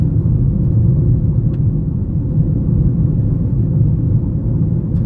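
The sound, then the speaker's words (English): A car driving on a loose gravel road that is being repaved, heard as a steady, low rumble of road and tyre noise that continues evenly throughout, with no talking. “I'm on a loose gravel road.”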